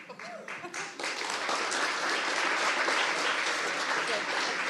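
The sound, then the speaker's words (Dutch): Audience applause at a public philosophy talk, quieter in the first second, then swelling into a dense, even clapping wash that continues steadily to the end. “Ja, groot applaus voor Michael, vind ik ook.”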